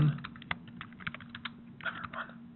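Keyboard typing as a comment is entered, a long run of quick, irregular keystroke clicks at low volume, with no voices.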